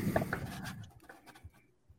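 Handwriting during a game night: soft scratching strokes on a writing surface, busier and denser in the first half, then thinning into faint, scattered scrapes toward the end.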